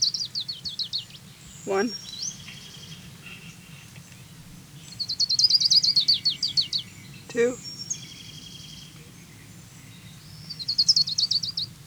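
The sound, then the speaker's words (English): An Orange-crowned Warbler sings high, thin, rapid trills in three separate bursts with quiet gaps between them, over a faint low background hum. “Here's Orange Crown Warbler number 5.”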